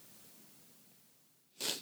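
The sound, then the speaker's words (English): A single short, breathy sneeze bursts out at the very end after a quiet stretch of faint hiss. “Sorry, I'm going to sneeze. Hold on.”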